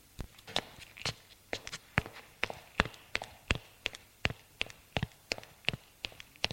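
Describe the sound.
Footsteps climb stairs to a first-floor room, many crisp, evenly spaced steps at a brisk, regular pace with no talk.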